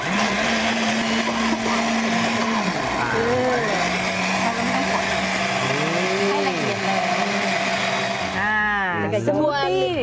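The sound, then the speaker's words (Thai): A blender whirs loudly and steadily as it grinds 500 g of soybeans with 4 litres of water, its motor whine wavering slightly, with people talking over it toward the end. “เราชั่งจากแห้งๆก่อนนะคะ500 กรัมแล้วก็ใช้น้ำ4 ลิตร ค่ะ ค่ะปั่นเลยไหมครับอาจารย ์ปั่นเลยค่ะ ปั่นแรงเลยนะครับ”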